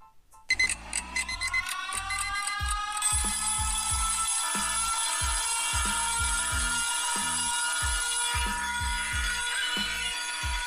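An alarm clock rings loudly and without pause for about ten seconds. A bright metallic jangle sits over a steady, repeating mechanical beat, beginning abruptly after a brief quiet moment.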